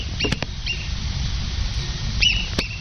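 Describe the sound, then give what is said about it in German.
Marmot warning whistles come as a few short, sharp, high-pitched calls in two brief clusters, one early and one late, over a low, steady background rumble. “Ob die Murmeli wirklich verschiedene Pfiffe haben für Achtung Wanderer oder Achtung Fuchs, das ist noch nicht sicher.”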